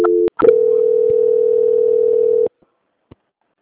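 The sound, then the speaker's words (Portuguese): A telephone call-transfer tone: a brief beep, then a steady mid-pitched tone that holds for about two seconds before cutting off, followed by a couple of faint clicks on the line. “Aí eu vou transferir a senhora novamente, tá bom? Só um tá bom. instante. Transferência.”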